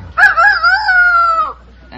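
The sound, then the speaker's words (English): A person imitates a rooster crowing with one loud, drawn-out nasal call lasting over a second. It holds a bright, wavering pitch before sliding downward and breaking off. “Yeah, that's good. It's a rooster.”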